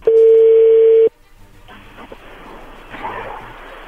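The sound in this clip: Telephone line tone while a number is dialed: one loud, steady, mid-pitched tone about a second long that cuts off sharply, followed by faint, noisy line hiss.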